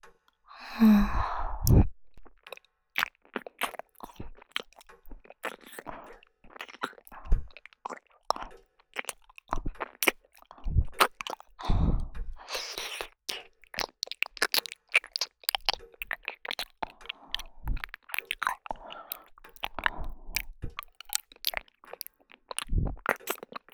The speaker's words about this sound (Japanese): みかん。おいしい。